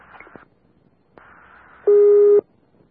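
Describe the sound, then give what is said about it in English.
Fire dispatch paging tones sound as a few steady electronic beeps of fixed pitch, with short gaps between them and the final tone much louder. “Be advised, you only put up medical tones, not fire tones. Bye for fire tones.”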